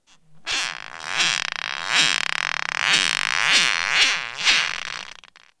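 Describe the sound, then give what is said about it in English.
Squealing groans from a plastic knife and straw dragged across rubber, slowed to 10% of normal speed, form a series of drawn-out, wavering, rasping moans with rich overtones. The moans come in repeated swells, with no talk. “This is the sound slowed down to 10% of regular speed.”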